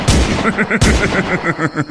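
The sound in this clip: A gunshot fired from a gun in a radio drama: a loud, sharp report followed by a second blast, each trailing off in a decaying tail with tonal sound beneath.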